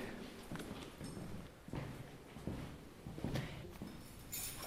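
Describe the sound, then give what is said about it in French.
Faint footsteps climb a staircase to the second floor of a former prison in Pont-l'Évêque, a few soft, uneven thuds over quiet background noise. “Et alors on se dirige maintenant au deuxième étage, donc en prenant l'escalier.”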